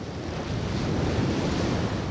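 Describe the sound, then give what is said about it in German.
Ocean waves rolling in as a steady, broad rushing wash of surf, continuous and fairly full throughout, with no voices. “Und wir brauchen dazu unbedingt nochmal Wellenrauschen.”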